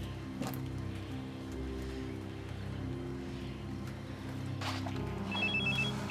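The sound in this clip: A telephone rings during a call placed to a friend, a steady tonal ring holding throughout with no talk over it.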